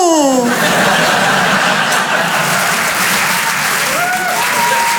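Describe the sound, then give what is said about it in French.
Audience applause at a comedy show, a thick, even roar of overlapping clapping that keeps a constant level throughout, with some laughter mixed into the crowd noise. “Il y a des gens qui ont arrêté d'applaudir dès qu'ils ont vu ma tête.”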